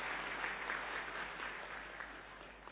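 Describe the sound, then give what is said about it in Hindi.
Muffled applause from an audience welcoming a speaker before a spiritual class, faint, continuous clapping with an even texture throughout, slowly easing off slightly toward the end. “आदरणीय उषा बहन जी का हम सभी करतल ध्वनि के साथ स्वागत करते हैं, स्वागत करते हैं।”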